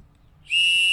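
A single whistle blown at a sports game: a shrill, steady high tone starts about halfway through and stays loud to the end, after a quiet low rumble.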